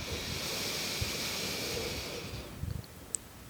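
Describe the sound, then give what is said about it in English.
A deep breath drawn in and let out through the nose during a meditation exercise: a soft, steady airy rush lasting about two and a half seconds, then easing off into quieter stillness. “breathing in and breathing out through the nose, and again. Big inhale”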